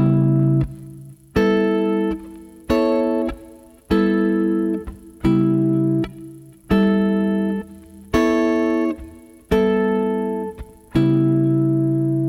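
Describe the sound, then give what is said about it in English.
A guitar plays three-part and four-part chords. Nine chords are struck one at a time at an even pace, and each rings out and fades before the next. “you can pull three-part and four-part chord structures out of them. So this would sound like this.”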